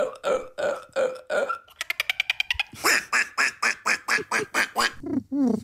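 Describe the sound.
Human voices imitate animal calls with duck-like quacks and croaky, burp-like sounds. They come in several runs of repeated bursts, including a quick string of short rapid pulses, all without other talk.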